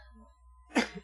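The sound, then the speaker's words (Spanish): A single short cough bursts out near the end after a quiet lull, a rough, throaty expulsion of moderate loudness heard alone. “el momento de la tos. Totalmente normal.”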